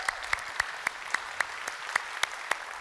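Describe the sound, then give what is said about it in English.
A church audience in North Garnett applauds to welcome online viewers. The clapping is faint but steady, with sharp, evenly spaced claps standing out at a regular rhythm. “if you guys here in North Garnett would you put your hands together and welcome in our online family.”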